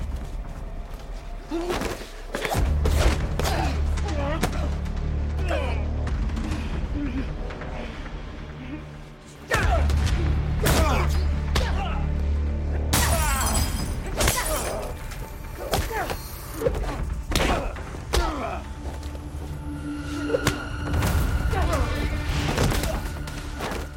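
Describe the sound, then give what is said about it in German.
Heavy punches, thuds and crashing impacts from a fight scene in the German crime film Sarah Kohr, many hard blows in rapid, uneven succession, with brief voices between them. “Boah, das ist ja, die hauen aber auch ordentlich zu.”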